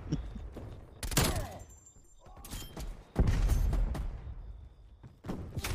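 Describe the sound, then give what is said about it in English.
Explosions and gunfire from a shooter video game, including a thrown grenade, appear as two heavy booming blasts with rumbling tails, separated by quieter stretches and scattered sharp shots. “Oh, shit, guys, run! Oh, damn it. My grenade didn't go near as far as I planned on.”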